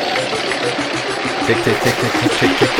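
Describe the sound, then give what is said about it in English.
A prize wheel spins with a rapid, steady clatter of ticks and a whirring rumble. The sound stays loud and unbroken for the whole stretch. “I want to spin the wheel, and we'll see who gets to go. Ooh. We have a wheel? Yeah. Yeah. Here it comes.”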